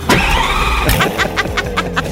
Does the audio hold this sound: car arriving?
yes